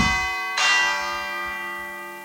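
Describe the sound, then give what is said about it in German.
Church bells ring with a couple of strokes, each leaving long, sustained humming tones that slowly fade, heard alone without talk. “es ist schön zu sehen, dass es die Glocken noch gibt.”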